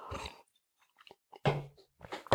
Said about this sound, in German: wir nehmen nochmal gerade einen Schluck Wasser